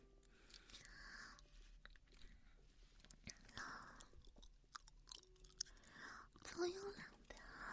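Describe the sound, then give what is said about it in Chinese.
Grapes being chewed and bitten, quiet wet crunches and squelches repeating irregularly, with faint whispering in the background. “我还在这直播的里头吃了，吃了葡萄。”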